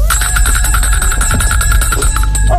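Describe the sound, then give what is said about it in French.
A doorbell rings on and on at a front door, a loud, continuous metallic trill with a rapid vibrating pulse and no voices over it. “Oui, ça fait plusieurs fois que je sonne, personne ne répond.”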